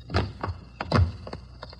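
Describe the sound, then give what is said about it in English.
A basement window in a dark, locked building being pried open: a few dull wooden knocks and thuds with short scraping creaks between them, at moderate loudness. “We found a window in the basement and finally jimmied our way in.”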